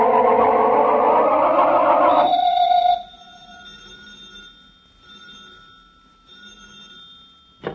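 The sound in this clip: A telephone bell rings loudly in a continuous metallic trill for about two seconds and then cuts off, leaving faint lingering tones and a low hum.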